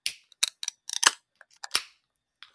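A can of pink guava, vanilla and marshmallow flavoured drink is cracked open, heard as a series of sharp clicks and snaps with a louder crack and short hiss near the end, then a faint final tick.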